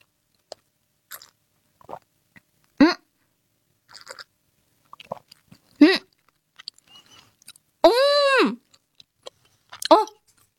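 Chewing a mouthful of canned tuna with mayonnaise: sparse, soft, wet clicks and smacks, broken by a few short voiced hums of appreciation.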